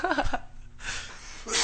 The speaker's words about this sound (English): We're both coughing this morning.